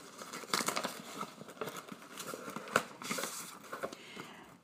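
Faint crinkling and rustling of packaging as a Small Town Table birthday gift box is opened, with soft irregular crackles and a few sharper tearing bursts and no voices.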